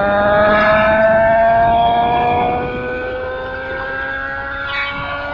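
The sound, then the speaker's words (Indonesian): A car engine drones loudly as the car speeds through a green traffic light: a steady, harmonic hum whose pitch creeps slightly upward, easing somewhat in loudness about halfway through. “bro, ngebut bro. Mumpung masih lampu hijau nih.”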